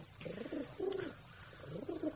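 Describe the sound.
Pigeon cooing: soft, low, throaty coos repeated in a few short phrases, faint and alone with no talk.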